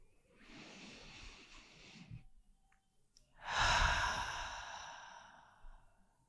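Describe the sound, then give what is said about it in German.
Deep breathing in during a guided meditation: two long, airy breaths with a short quiet pause between them. The second is louder and fuller than the first, and no one speaks. “Und atme mal dieses Neue ein.”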